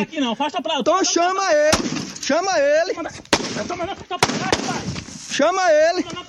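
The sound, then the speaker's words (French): Gunshots fired into the air by a guard at a future cotton plantation in Brazil's Cerrado: three sharp, loud cracks break through people talking. “Voilà, des tirs en l'air de la part du gardien d'une future plantation.”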